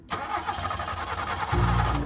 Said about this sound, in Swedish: Starta inte bilen. De försöker.